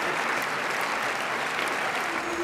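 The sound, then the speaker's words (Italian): Audience applause fills a large festival screening hall of over two thousand seats at the end of a film, a dense, steady wash of clapping with no breaks, loud throughout. “Gli applausi alla fine della proiezione sono un'esperienza unica.”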